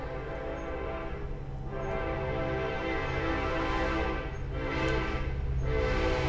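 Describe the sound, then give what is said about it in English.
A train horn blares over the steady, heavy rumble of a passing train, with the loud roar running unbroken throughout. “but it sent a train crashing through my podcast.”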